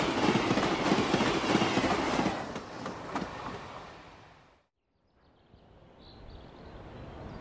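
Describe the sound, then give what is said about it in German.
A train rolls on rails near Kittsee as it crosses the border between East and West. A steady, broad rumble carries a faint rhythmic clatter, then fades away midway before a quieter, different background rises. “Kurz vor Kitzee passiert der Zug die Grenze zwischen Ost und West.”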